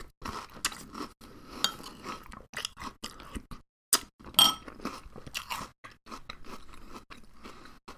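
Crunchy chewing of Cinnamon Toast Crunch Churros cereal eaten from a bowl: many crisp, irregular crunches in quick bursts with short gaps, fairly loud and close, with no talking.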